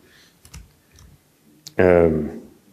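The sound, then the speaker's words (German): A few soft, isolated key presses on a computer keyboard while typing a keyboard macro, followed by a short burst of a voice. “So, und jetzt schreiben wir mal ein kleines Keyboard-Makro.”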